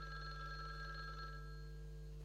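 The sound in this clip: A telephone rings with a steady, continuous electronic tone that holds at an even level over a low background hum, with no voices.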